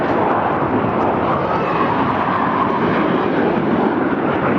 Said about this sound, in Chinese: 这次出现在我们上空的这个三架歼15组成编队，它的作战的体系比我们刚才想象的更加完整。